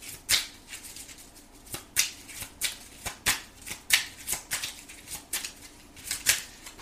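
A deck of cards is shuffled by hand, giving many quick, crisp snapping and rustling bursts in an irregular rhythm. The shuffling is fairly quiet and there is no talk.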